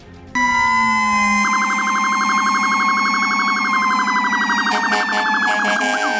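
Fire department sirens wail loudly and continuously, several overlapping tones rising and falling in pitch over steady horn-like blasts, with no talk throughout.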